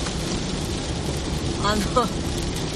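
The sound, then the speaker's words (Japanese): Heavy rain pours onto a car during a drive, a dense and steady hiss of raindrops that fills the whole clip. A brief voice sound rises over it near the end. “皆さんお聞きいただけますでしょうか、この雨粒の音、すげーよ。久しぶりにこんな大雨、”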